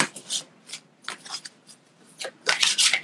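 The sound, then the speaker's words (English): Tarot-style cards are shuffled and pulled for a Halloween card reading, producing a few dry, papery riffles and rubbing bursts that grow louder and denser toward the end, with no talking. “We'll see what we get for a little Halloween card pull.”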